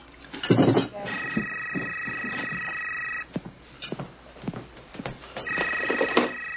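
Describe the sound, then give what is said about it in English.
A telephone ringing in two long, steady electronic bursts separated by a pause, with people talking around and between the rings. “No, I'll get the phone. I'll get the phone.”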